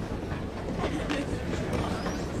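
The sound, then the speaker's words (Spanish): A train in motion gives off a steady, dense rumble with a constant hiss, holding an even loudness throughout without distinct clacks. “Estoy en el tren. Voy hacia el sur de la ciudad.”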